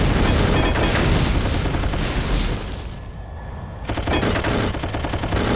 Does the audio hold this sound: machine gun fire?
yes